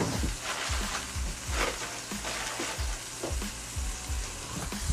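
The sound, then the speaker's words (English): A block of chorizo sizzles in melting butter in a pan while breakfast eggs are readied: a steady, crackling fry with constant popping, heard alone. “This is getting ready for the eggs. We got the chorizo cackling. Here it is.”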